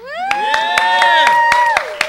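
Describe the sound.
Audience cheering and clapping to welcome a doctor back to the Bonoboville speakeasy: sustained whooping voices over about eight evenly spaced, loud claps in a steady rhythm.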